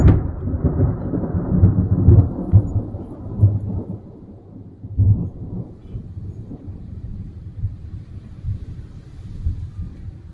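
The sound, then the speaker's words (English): Thunder rumbles on a stormy night: a deep, loud, continuous roll that is strongest at the start, swells again midway and then eases into a lower, steadier rumble. Wind noise may be mixed in, and no voices are heard. “the winds were howling, and V”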